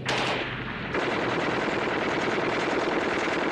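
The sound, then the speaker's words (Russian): Heavy, sustained fire from a Maxim machine gun during a battle with tanks, a dense continuous rattle that stays loud from start to finish with no pauses. “Плотный огонь пулемета «Максим». Немецкие солдаты отступают.”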